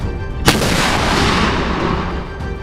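A single heavy blast of weapons fire from ships: a sharp crack followed by a long roaring rumble that slowly fades away.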